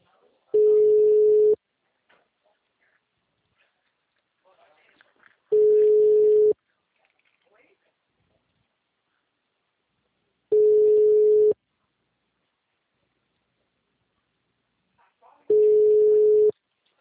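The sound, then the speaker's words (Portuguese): A telephone ringback tone plays while someone is being called: four steady, one-second low-pitched beeps separated by long silences. “Estou ligando para ele.”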